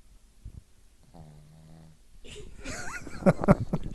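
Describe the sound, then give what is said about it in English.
An elderly dog of about fourteen that wears a diaper snores with a faint snort and then a soft, drawn-out nasal wheeze, followed by people talking. “I wonder if you can hear this dog snoring.”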